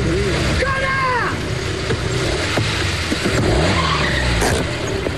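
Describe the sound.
A car skidding and clipping a wing mirror, with tyres squealing in a few short wavering tones over loud, constant road noise.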